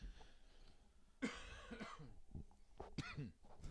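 Faint coughing from a tickle in the throat: a couple of short, breathy coughs with noisy bursts, heard alone without talk.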